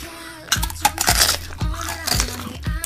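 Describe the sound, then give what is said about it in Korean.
Crunchy tanghulu, candied fruit on a stick, is bitten and chewed, giving a few sharp, loud crackling crunches of hard sugar shell separated by softer chewing and crinkling sounds. “어우, 달다 봐라. 당신도 먹어봐. 이게 탕후루라고 요즘 애들이 환장한데.”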